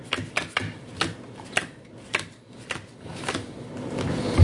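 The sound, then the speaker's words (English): Playing cards drawn from a deck during a tabletop card game: many crisp snaps and flicks at an uneven pace, with a low rumble building toward the end. “So, we need to draw cards. Yes. Yes. Draw 6 from your regular hand and 4 from your potential hand.”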